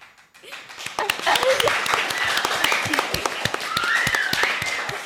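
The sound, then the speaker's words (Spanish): Applause rings out at a school as classmates clap for a pupil chosen to train with a women's football team. The clapping is dense and steady throughout, mixed with excited shouts. “Un aplauso para Alejandra.”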